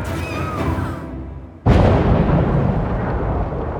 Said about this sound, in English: Message from Discordia Battlefleet. They went back and blew up the formicary before they woke up.